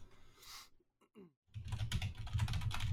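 Typing on a computer keyboard: rapid, faint key clicks in quick bursts that grow denser after a short pause.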